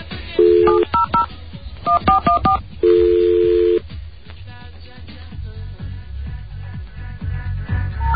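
Touch-tone beeps as a telephone number is dialed: quick groups of short paired tones with a couple of longer held tones, then a quieter hissy stretch with faint clicks.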